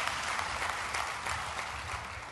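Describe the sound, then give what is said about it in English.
Audience applause fills the whole stretch as a dense, steady patter of many hands clapping, holding an even, moderate level without a clear peak or fade. “Now, that's worth clapping for, isn't it?”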